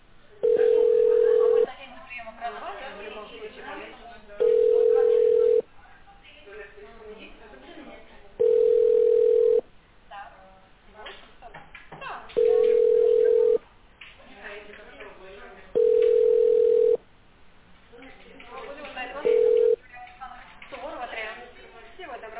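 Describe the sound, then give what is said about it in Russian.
Telephone ringback tone from an unanswered call: six steady mid-pitched beeps, each about a second long, recurring every four seconds with the last cut short, over a continuous busy background murmur. “Абонент не берет трубку. Попробуйте перезвонить позднее.”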